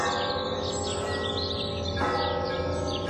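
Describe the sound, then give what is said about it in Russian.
Church bells ringing over a town of many churches and monasteries on Easter, their overlapping tones blending into a dense, continuous, fairly soft peal. “В городе было 42 церкви и 6 монастырей. Гулкий радостный звон с утра до вечера стоял над городом, не умолкая, волнуя весенний воздух.”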